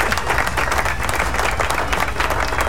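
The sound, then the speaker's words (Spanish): Applause from a crowd cheering the people of Teruel: dense, steady clapping that fills the whole stretch at an even, fairly loud level, with no voices rising above it. “Así que un aplauso a la gente de Teruel.”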